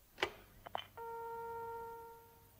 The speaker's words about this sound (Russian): Не беда, ведь у него есть телефон. Снимаете трубку,